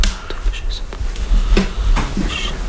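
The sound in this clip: Rummaging in a drawer while searching for something at home: irregular soft knocks, clatters and rustles of objects being moved, several in quick succession.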